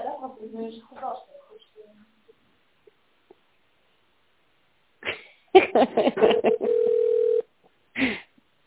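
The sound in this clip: Telephone keypad tones dialing an extension number follow a voice speaking and a quiet gap. A quick series of short key beeps leads into a longer steady tone.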